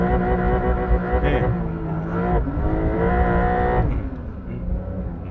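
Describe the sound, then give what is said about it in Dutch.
Revving engine of a Porsche 911 Dakar held against the rev limiter: a loud, sustained harmonic engine drone that wavers and briefly dips and rises in pitch, with no pause between bursts. “Want ik was niet handmatig aan het schakelen, maar ik bleef even, zeg maar, in die toerenbegrenzer even hakken.”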